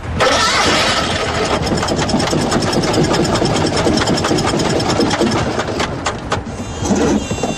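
A Fiat 126P small car, a rattling model built from 1973, starts up with a loud, rough, rhythmic putter that runs steadily throughout, with a few sharper clicks near the end.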